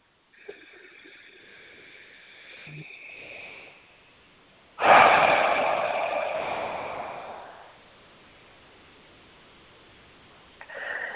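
Deep breathing in and out during a guided relaxation exercise: a soft, airy breath of several seconds, then a louder rushing breath lasting a few seconds, fading into quiet, with no talking.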